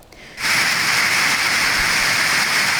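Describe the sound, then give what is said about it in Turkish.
A heavy downpour in Kars, Turkey, during a storm that flooded streets and streambeds. After a brief quieter moment, a dense, loud, steady hiss of rain sets in and continues without break. “Ardından etkisini artıran sağanak nedeniyle bazı dere yatakları taştı, yol ve caddeler suyla kaplandı.”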